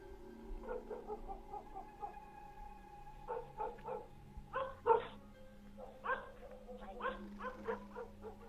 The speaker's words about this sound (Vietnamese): con chó mực từ trong nhà chạy ra. Nó hướng ra ngoài cổng mà sủa nhấm nha nhấm nhặng.